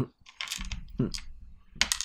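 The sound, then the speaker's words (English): Dice clatter across a surface in a few short, sharp rattling bursts as two eight-sided dice are rolled during a tabletop game, with a low voice faintly underneath. “I've been rolling the wrong dice for his shooting. 2d8, not 2d6”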